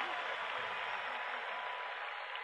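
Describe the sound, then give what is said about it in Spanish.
Audience applause for a performer, a steady, dense wash of clapping that stays faint and even throughout. “para el maestro, los aplausos. Fuerte ese aplauso. Fuerte ese aplauso.”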